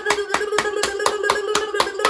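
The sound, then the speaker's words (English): Quick hand clapping in a children's follow-along game: around nine sharp, evenly spaced claps in two seconds, crisp and rhythmic over a steady held tone. “So clap your hands quicker, shake your head quicker, and stick your tongue out”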